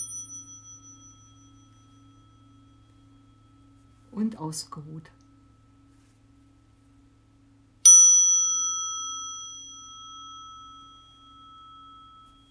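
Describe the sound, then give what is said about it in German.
A struck singing bowl in a guided relaxation session rings out with a bright, sustained tone that slowly fades over several seconds. It follows a brief spoken phrase and the fading tail of an earlier ring. “Mit dem Klang der Schale kommst du ins Hier und Jetzt zurück.”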